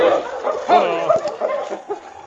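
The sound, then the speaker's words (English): A dog whines and barks on a trail near a busy mining settlement, giving a series of high, wavering whimpers broken by short yips and barks at moderate loudness. “Has he found something? I'm afraid he's lost the trail. Once a dog gets to a busy place like the Forks, it's pretty hard to untangle all the different scents.”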